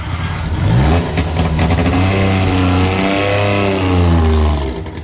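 Engine of a Syrena, the Polish-designed car produced from 1957, revving loudly with a buzzing harmonic drone whose pitch wavers slightly, running continuously throughout.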